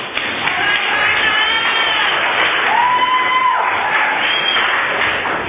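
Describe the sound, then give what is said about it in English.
A crowd cheers, whoops and shouts to welcome a speaker at a Valley Group meeting, a sustained, fairly loud roar of mixed voices that stays steady from start to finish. “please offer a warm Valley Group welcome to Vernon from Visalia.”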